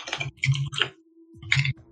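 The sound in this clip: A few quick clusters of key presses and clicks on a computer keyboard, crisp and clattery, with a low steady hum underneath and a short pause before the last burst.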